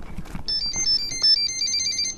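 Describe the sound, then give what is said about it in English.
A drone's autopilot switches on with a quick run of high electronic beeps that alternate between two tones for under two seconds. A few faint clicks come before the beeps. “So that's the sound of our autopilot turning on.”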